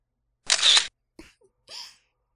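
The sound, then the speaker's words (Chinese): A camera shutter fires as a photo is taken: one bright, crisp burst about half a second long, then two fainter short clicks. No voices. “来给我的杰作拍一张照片吧。”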